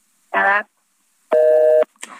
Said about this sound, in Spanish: Se cortó la llamada